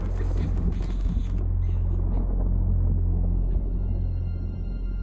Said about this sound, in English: Outside, lightning flashes in the night sky as a thunderstorm brews.